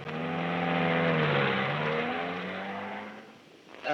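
A car engine runs and pulls away, a steady droning hum with layered tones that shift slightly in pitch, holding loud before easing off near the end.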